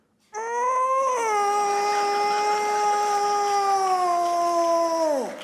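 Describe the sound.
A cat lets out one long, drawn-out howl, loud and sustained at a steady pitch before dropping sharply at the end, with no other sounds around it.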